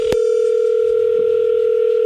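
A steady telephone dial tone heard while placing a call, a loud continuous hum that starts with a short click and runs unbroken to the end.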